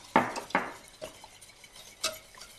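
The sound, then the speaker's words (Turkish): A spoon knocks and scrapes against a pot while stirring a thickening mixture: a few separate, faint clinks spaced apart, with no talking. “Görüyorsunuz şu anda yoğunlaşmaya başladı. Hemen karıştırıyorum.”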